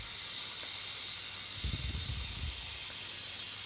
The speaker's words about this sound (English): I guess that's the sputtering that I heard right about. It's melting pretty good now.